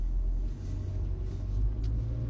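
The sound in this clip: A car drives the wrong way down an alley, its engine a low, steady rumble that holds an even level throughout.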